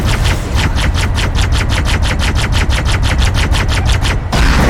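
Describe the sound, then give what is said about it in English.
Automatic gunfire in the Halo video game, a loud, rapid stream of many evenly spaced shots in a tight mechanical rhythm that cuts off abruptly just before the end. “the shooting sounds are so loud. Yeah. Isn't it great? It's a bit insane. I'm turning the shooting sounds down as much”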